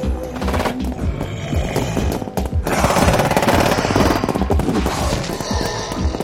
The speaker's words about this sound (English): This is it, men! Fire at will!